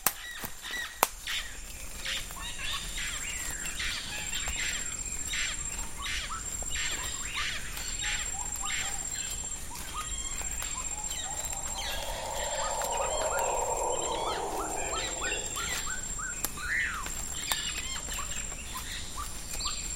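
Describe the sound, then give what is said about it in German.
Dense primary rainforest near the Pacific coast fills with a steady, high insect whine, scattered bird calls and chirps, and a soft, constant hum of background life. “Schon nach wenigen Sekunden verschluckt uns der dichte Primärregenwald.”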